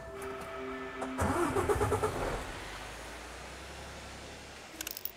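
A delivery truck's engine starts before driving off: after a low hum, there is a brief cranking burst about a second in, and then it catches and settles into a low, steady running rumble.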